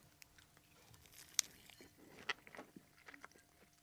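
Faint biting and chewing of delivery pizza: soft, irregular mastication sounds broken by two sharp crunches.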